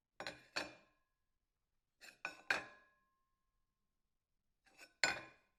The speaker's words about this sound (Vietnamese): Nói xong, thầy rót 3 ly rượu bày lên bàn.